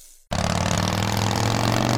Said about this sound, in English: Rev up your ride with Lazy Dog Motor Trikes